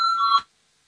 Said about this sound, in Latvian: Lūdzu zvanu, balsosim par otro atbildīgās komisijas priekšlikumu.